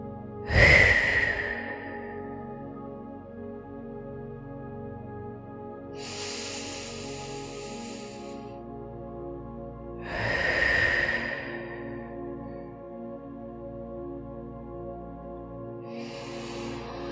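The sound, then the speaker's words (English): Slow, deep breaths taken during a guided meditation, airy inhales and exhales rising and falling at a relaxed pace over a soft, steady hum. “Gently close your eyes and place your hands in your lap. And let's begin by taking 3 deep breaths.”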